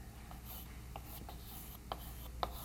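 Faint scratching of writing on a board during a mathematics lecture, several short strokes over a low hum, with a couple of sharper taps near the end and no talking.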